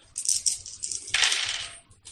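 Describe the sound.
Dice clatter as they are rolled for a tabletop role-playing game, a few quick rattling taps followed by a longer tumbling clatter that settles, bright and fairly quiet.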